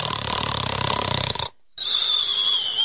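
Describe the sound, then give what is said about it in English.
A voice imitates the snoring of a large, bearded man asleep in a movie theater: a loud, rattling snore, a brief silent gap, then a thinner, whistling wheeze. “since we all heard this festering pile of shit snoring, we all look over. And he was out cold.”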